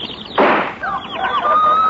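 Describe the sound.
A single sharp gunshot bang rings out as a sound effect in an old radio comedy skit. It is a short, loud burst, followed by thin whistling tones that settle into one steady high note.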